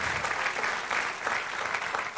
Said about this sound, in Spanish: Dale aplauso, Señor.